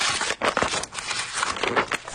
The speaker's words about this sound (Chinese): 我们拆开第二封信。